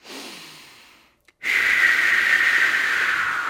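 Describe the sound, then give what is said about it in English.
A person demonstrates breathing really hard: a softer breath fades out, and after a short pause a loud, forceful, hissing breath holds steady for about two seconds. No one speaks. “if you breathe really hard, if I, I go,”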